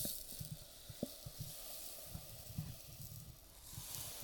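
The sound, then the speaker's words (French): Granular hiss of 100 g of sugar being poured into a measuring cup, faint and steady, with a few soft ticks scattered through the pour. “Ensuite, on y ajoute 100 g de sucre. Pour avoir 100 g de sucre, on met ça dans le verre-doseur.”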